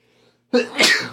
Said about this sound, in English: Sorry for sneezing in your ear there twice.